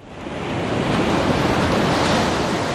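Baltic Sea waves washing onto the shore make a steady, loud rushing roar of surf that stays continuous and dense throughout, with no separate breaks standing out.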